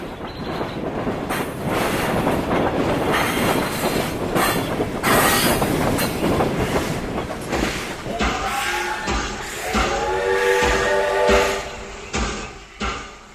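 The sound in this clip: A train hauled by a locomotive slows down, its wagons rumbling and clattering loudly before high, squealing wheel tones rise over the rolling noise toward the end.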